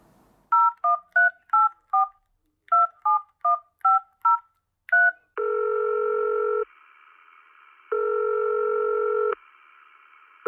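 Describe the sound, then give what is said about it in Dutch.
A landline number is keyed in as a quick run of a dozen or so short touch-tone beeps at varying pitches. Long, steady line tones follow, separated by a pause, and a third begins at the very end. “Laten we die eerst bellen.”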